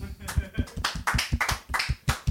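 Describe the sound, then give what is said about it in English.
A man claps for himself: a quick run of many sharp, thumpy hand claps at a fast, fairly steady rhythm, close and punchy. “Give myself a round of applause.”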